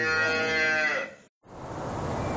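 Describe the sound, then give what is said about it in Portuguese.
Cattle moo: a long, loud, drawn-out lowing call, then a brief silence and a rougher, noisier bellow that continues to the end. “Marca aí um boi pra mim, um pra você. Vamos pra riba dele.”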